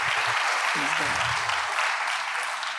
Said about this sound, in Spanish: Praise the Lord. Dale un aplauso a Dios.